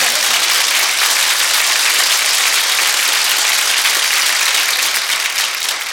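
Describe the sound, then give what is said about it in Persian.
An audience claps at a religious celebration night, producing dense, continuous, loud applause that holds steady throughout and dips only slightly at the very end. “اسم مادر سادات اومد دست تو بیار بالا کف کن.”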